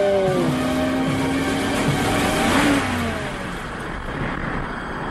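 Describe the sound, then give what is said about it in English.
A car engine revving as the car drives off a cliff: a loud, steady engine roar that swells briefly near the middle, then settles slightly quieter toward the end, with no voices. “He drove off a cliff.”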